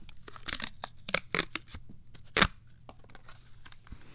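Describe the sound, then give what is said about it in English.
Ripping open a small product package: several short, crisp tearing bursts with crinkly rustle, one sharper and louder rip standing out near the middle, then softer rustling as the wrapping gives way. “I don't want to destroy this little package, but to take it out, I'm going to have to. Wow. Okay, so here we go. We're going to rip this thing open.”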